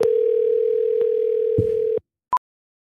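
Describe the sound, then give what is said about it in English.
Telephone dial tone while calling back, a loud steady hum held for about two seconds with a few brief clicks along it, then it stops and, after a short silence, a single quick high beep sounds. “Let's give this person a call back so we can hear the song.”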